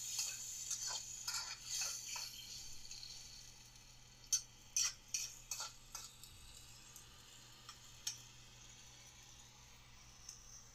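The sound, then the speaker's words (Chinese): Quiet kitchen sounds from a meal being cooked: soft clicks and clinks, a cluster of sharper ticks near the middle, and a faint hiss running underneath. “先做饭吧。”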